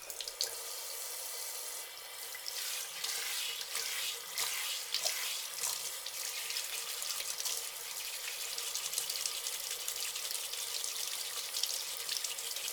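Water runs steadily to rinse hair, making a continuous soft hiss with small splashing flutters. It stays fairly quiet throughout, with no talk.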